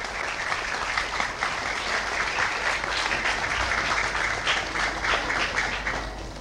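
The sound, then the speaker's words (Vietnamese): Loud, sustained applause from an audience in a hall at a photography awards ceremony. Dense, even clapping fills the whole stretch without a break or a fade. “tràng vỗ tay vừa lớn lại vừa kéo dài”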